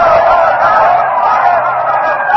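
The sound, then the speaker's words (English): An angry crowd denounces the conspirators and calls for vengeance, a loud, dense, continuous roar of many voices that holds steady for the whole stretch. “Stepping back, the herald rolls up the parchment, and the crowd is now denouncing Decimus Brutus, all the conspirators, is calling for vengeance.”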